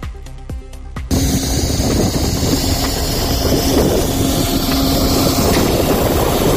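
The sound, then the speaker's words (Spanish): Artificial snow cannons run in the mountain wind at a La Rioja ski station, 1,630 metres up, at minus five degrees. About a second of quieter sound with a few clicks gives way to a loud, steady roar with a faint sustained hum beneath it. “Sonido del viento ahí arriba, los cañones de nieve artificial encendidos.”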